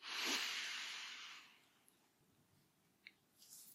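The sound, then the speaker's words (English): A deep breath is drawn in through the right nostril while the left is held closed during a cranial nerve exam, a loud airy hiss that swells and then fades over about a second and a half, followed by faint small noises. “put your hand or your finger over your left nostril and close it for me and take a big deep breath in through your right nostril”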